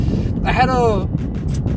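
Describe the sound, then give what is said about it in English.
Low, steady road rumble and wind buffeting from a car driving down Texas Boulevard, the main road in Westlake, Texas, running continuously beneath a voice that talks throughout. “Driving down Texas Boulevard right now in Westlake, Texas, is the main road.”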